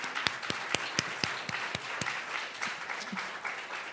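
Audience applause at a reading: a mix of many hands clapping, with a run of sharp, distinct claps standing out at first, then settling into a softer, steady patter.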